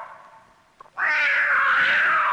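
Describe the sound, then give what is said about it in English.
A person imitates a cat, letting out a long, loud, drawn-out yowling meow that wavers in pitch, after a quieter, lower opening sound and a brief catch. “Someone got paid to meow.”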